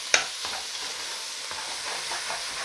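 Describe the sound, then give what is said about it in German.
Food frying in a pan while a cabbage pudding is cooked: a steady, bright sizzle runs throughout, with a sharp clatter near the start and a few soft stirring scrapes after it. “So, jetzt ist es ein bisschen lauter vom Braten.”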